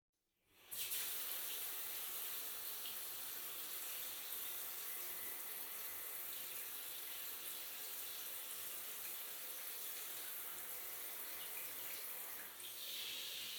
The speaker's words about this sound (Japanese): ちゃんと洗わないとね。こら、暴れないで。こっち座って。背中流してあげるよ。